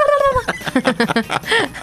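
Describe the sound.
A human voice imitates a turkey gobble by moving the tongue, giving a loud, rapid run of warbling, pitched yelps that ends in a slightly longer call.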